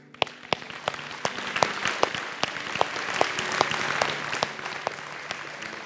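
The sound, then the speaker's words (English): Audience applause after a morning prayer: steady, loud, wild clapping with many sharp individual claps that keeps going throughout, with no voices. “if you prayed that this morning, we're going to clap wildly for you.”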